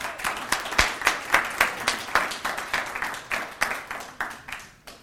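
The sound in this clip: An audience at a book event applauds as two speakers are welcomed, a moderately sized group of crisp, distinct hand claps in a lively patter that gradually softens and thins out.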